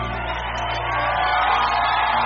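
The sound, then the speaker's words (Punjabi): Loud applause and cheering from an audience thanking the poet Surjit Patar at a recorded program, a thick, sustained roar of clapping mixed with shouts and whoops that holds steady and grows slightly louder toward the end. “Guru ji Surjit Patar ਸਾਹਿਬ ਦਾ ਕੋਟੀ ਕੋਟੀ ਸ਼ੁਕਰਾਨਾ ਜ਼ੋਰਦਾਰ ਤਾਲੀਆਂ”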